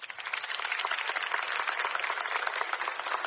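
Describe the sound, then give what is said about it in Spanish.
An audience of parents applauds with dense, steady clapping that stays at an even level throughout, without pauses or swells. “aplaudan los papás”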